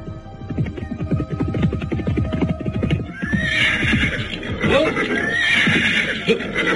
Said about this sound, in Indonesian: nampak seorang laki-laki berkuda muncul mendekati para prajurit jaga.